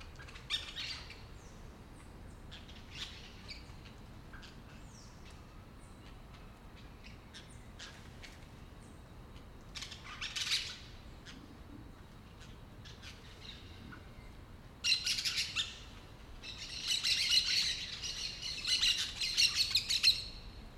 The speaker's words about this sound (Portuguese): periquitos estão na árvore do ninho de João de Barro, fazendo essa baguncinha.